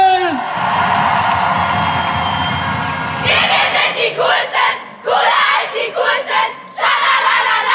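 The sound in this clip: A crowd at a dance competition event in Cologne shouts and cheers loudly, a sustained roar that breaks into several rhythmic bursts of chanted yelling.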